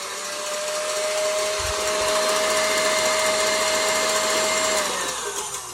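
Electric stand mixer with a whisk attachment whipping cream: a continuous whirring motor drone with a steady whine and bright hiss, the whine dipping slightly in pitch near the end.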